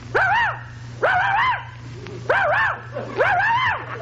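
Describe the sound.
A dog barks on command for a cigarette commercial gag: four drawn-out, arching yowls in an uneven rhythm over a steady low hum.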